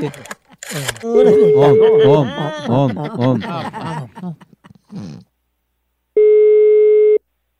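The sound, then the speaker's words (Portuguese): A single steady telephone tone sounds for about a second while a call is being dialed. Before it, voices talk and chuckle, then a short pause. “ligar agora pra Clabiano”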